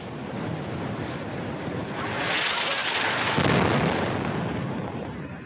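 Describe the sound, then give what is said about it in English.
Airstrike explosions in Gaza City, captured in news footage: a continuous heavy roar with wind-like noise builds to one louder, deep blast past the midpoint, then eases off slightly. “This appears to be airstrikes in Gaza City. These pictures just a few moments ago.”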